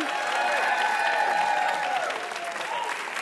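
A game show audience applauds to welcome two new contestants. The clapping is dense and steady, then eases slightly toward the end.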